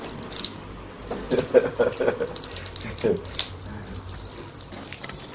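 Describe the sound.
Water runs from a tap as someone washes, a steady faint splashing hiss with a few small knocks and splashes, while a voice speaks briefly.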